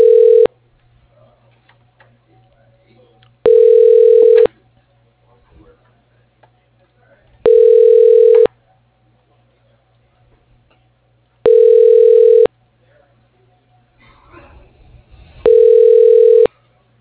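Ringback tone of a telephone line ringing while a call is transferred to an extension's voicemail: five evenly spaced one-second tone bursts, the first cut short, repeating about every four seconds over a faint steady hum.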